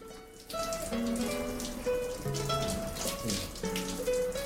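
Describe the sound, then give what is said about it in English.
Shower water running in a steady, faint stream of splashing hiss that begins after a brief near-silent moment and continues unbroken. “John soaks himself beneath the cascade of water, then turns around to see Annie getting into the shower.”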